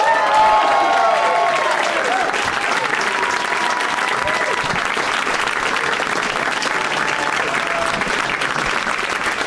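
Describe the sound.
A studio audience applauds and cheers as guests are welcomed onto a comedy show. The dense, steady clapping stays loud and continuous throughout.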